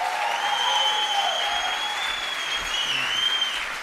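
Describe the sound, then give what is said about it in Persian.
Applause in honour of a performer: steady, dense clapping with a sustained, high whistle riding on top through most of it. “به افتخار فرهام بزنید دست قشنگه رو.”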